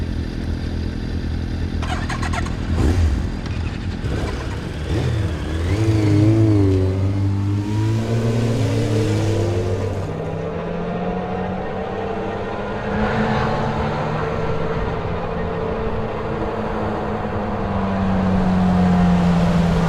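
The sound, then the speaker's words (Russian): Motorcycles start up at a filling station and ride away. Their engines rev loudly with rising and falling pitch, then settle into a sustained drone that swells again near the end. “Они садятся на свои мотоциклы и уезжают.”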